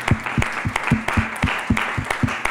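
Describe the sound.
Audience applause at the close of an evening talk, with brisk, fairly dense clapping from a modest crowd that stays steady and even for the whole few seconds, with no voices over it.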